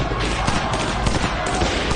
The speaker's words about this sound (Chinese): 因帝国主义的巡捕向人群开枪，造成了多人死伤。